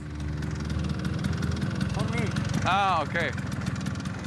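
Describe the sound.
Vespa scooters of a touring Vespa club idle and putter at a roadside rest stop in the Basque country, a steady low engine rumble with voices briefly rising over it partway through.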